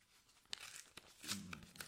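Paper tearing and crinkling as an envelope is ripped open live on air, heard as a few short, scratchy bursts over a faint background, with one stronger rip near the middle.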